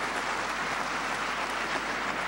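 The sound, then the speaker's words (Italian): Big applause for a speaker fills the whole stretch as a dense, loud, unbroken wash of clapping. “Ora Obama salutato, tra l'altro, è un grosso applauso. Ascoltiamolo.”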